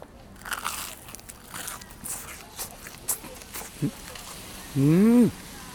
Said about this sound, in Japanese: 外はほんとカリカリなんですね。ところがこう中噛み込むともうとろっと、もうじゃがいもがもうとろっとしてますね。